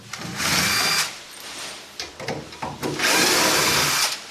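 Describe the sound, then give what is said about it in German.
Cordless screwdriver backing screws out of a stubborn shelf board: two sustained, loud whirring motor bursts, separated by a few short knocks and clicks. “Und natürlich der Akkuschrauber unter anderem, damit du die Schrauben rein und raus kriegst, logischerweise.”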